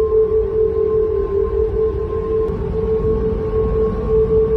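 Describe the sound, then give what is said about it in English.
High wind through the replaced handrails of an 83-year-old bridge produces a loud, sustained tonal hum with a whistling edge. The steady drone wavers slightly in pitch, with a fainter higher overtone running above it. “High winds blowing through the railings have caused the bridge to produce a sound described as a”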